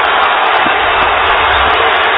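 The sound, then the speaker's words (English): A basketball crowd on its feet at the Air Canada Centre gives off a loud, unbroken roar that stays level throughout with no distinct peaks. “Mike D'Antoni won't call timeout and let the Raptors set up their D. The crowd on its feet here at the Air Canada Center.”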